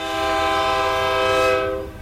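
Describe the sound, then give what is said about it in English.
Train horn blasts as a single loud, sustained chord-like tone lasting about two seconds, steady throughout before it cuts off abruptly, with no voices. “And there's a train right there. Like being... Right. Like the horn on the train.”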